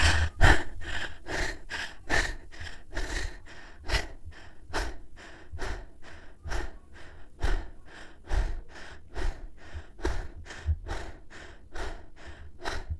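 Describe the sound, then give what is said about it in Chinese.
Very rapid, forceful breathing in and out as a breathing exercise, a long, fast, even series of sharp breaths. “如果大家有兴趣的话，可以跟着我一起进行非常快速的吸气和呼气，重复十到十五次，就大概像这样。”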